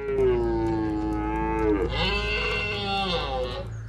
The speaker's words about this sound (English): They mingle with the hinds to get their scent. In turn, their calls excite the females and help to stimulate their ovulation.